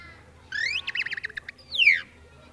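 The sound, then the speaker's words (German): A tit singing alone: a bright rising whistle, then a quick run of short high chirps, and finally a clear descending slurred note, fairly faint against a quiet background. “aber vielleicht hört ihr doch lieber eine Meise.”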